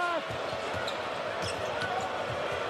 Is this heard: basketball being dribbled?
yes